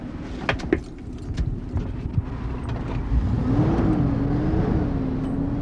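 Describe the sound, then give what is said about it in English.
A customized GMC motorhome drives along, its engine drone swelling and growing louder in the second half after a few light clicks at the start. “Every weekend, Murphy drives a customized GMC motorhome, he calls Freddy, to small towns throughout the state.”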